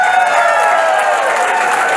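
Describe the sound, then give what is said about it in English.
An audience claps after a speech, a steady, dense wash of applause with crowd noise that holds at an even level throughout. “It is hysterical. Everybody is laughing so hard and clapping. You can see you had the whole room in the palm of your hand.”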